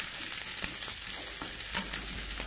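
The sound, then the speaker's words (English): Halved Brussels sprouts fry in a pan with a steady, crackling sizzle, punctuated by a few sharper pops and spits that rise briefly above the continuous hiss. “So I'm just cutting off the bottom of the Brussels sprout, cutting them in half, yeah. And then I'm going to put the heat on over here, and I'm going to fry them just a little bit.”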